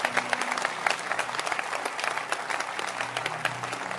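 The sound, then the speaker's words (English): Audience clapping at a church gathering, a dense, lively patter of many hands, steady and fairly loud throughout, with faint crowd murmur beneath and no talk. “Can you clap for my mother? Join me to celebrate her.”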